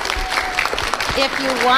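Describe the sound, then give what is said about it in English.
Applause from a school gathering welcoming new students: a dense patter of clapping hands that holds steady and swells toward the end, with voices talking over it. “Let's give them a big hand and say welcome.”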